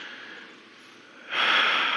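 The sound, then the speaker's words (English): An audience breathes in together on cue. A soft, breathy hiss swells suddenly into a louder, sustained rush of inhaled air that lasts to the end. “Take another breath and in. Okay, one more. Breathe in.”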